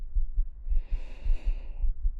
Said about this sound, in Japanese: ほら、わかりますか、私の心臓ドキドキしてますよね。